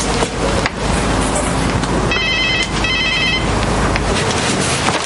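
A telephone rings in two short, bright trilling bursts midway through, heard over a loud, steady background of road traffic noise.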